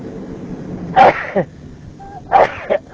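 Two sharp human sneezes, each a loud burst followed by a short softer catch, with a quiet pause between them.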